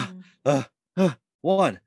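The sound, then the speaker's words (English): A human voice imitates the heavy breathing of someone doing push-ups: a few short, forceful voiced huffs in a quick, even rhythm, with a softer breath at the start. “I didn't have the actors actually do push-ups, but it's like, do all the heavy breathing that comes with push-ups.”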